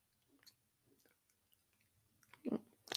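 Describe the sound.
Faint chewing of food, with soft wet mouth sounds followed by a couple of louder crunching bites near the end.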